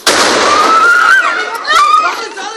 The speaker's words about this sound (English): The sound of Palestinian Hassam rockets landing in Sderot.